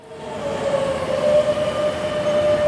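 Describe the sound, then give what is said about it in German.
A metro train arrives at an underground station in Madrid: a steady low rumble with a sustained high wheel squeal running through it, growing slightly louder over a few seconds, with no voices. “Die Metro von Madrid ist alles andere als ein Ort der Ruhe, zumindest zu den Stoßzeiten. Bahnen kommen fast im Minutentakt.”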